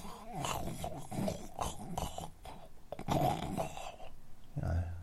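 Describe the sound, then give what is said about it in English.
A voice imitates snoring with piglet-like snorts and grunts, rough nasal bursts repeating unevenly and ending in a deeper low grunt. “how snory that I'd been, but surprisingly enough, there wasn't much snoring. I thought there was going to be me going”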